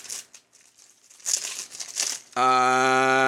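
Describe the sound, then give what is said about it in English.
Crinkling and tearing of a Magic the Gathering card pack's wrapper as it is opened, in bursts of crisp rustling. It cuts off abruptly into a loud, steady buzzing tone. “You're opening Magic the Gathering packs here.”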